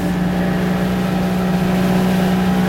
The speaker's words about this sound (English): As we motor out towards Hussey Sound